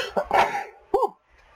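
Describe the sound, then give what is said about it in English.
A single sneeze: a quick, breathy burst followed by a short voiced catch, heard alone with no talk. “As I sneeze.”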